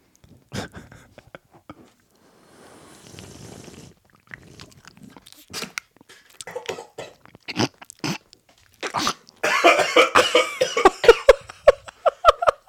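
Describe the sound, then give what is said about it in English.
Someone chews a Boston cream doughnut close to an ASMR microphone, making many soft wet clicks and smacks that grow busier and crunchier, then breaks into coughing as it goes down wrong. “Oh my god, it went down the wrong hole. I can hear the Boston cream swirling around in your mouth.”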